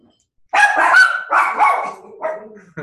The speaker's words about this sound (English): Sorry about my dogs.